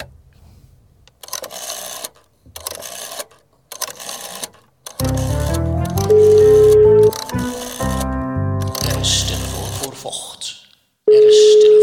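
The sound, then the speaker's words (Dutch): A telephone is dialled and rings to place a call: a run of quick electronic keypad tones is followed by a steady ringing tone that sounds twice, with short separate bursts before the dialling. “Ja, ik heb wel een dokter. Zullen we die eens even vragen? Oh, gaan we die bellen? Ja, natuurlijk, lijkt me prima.”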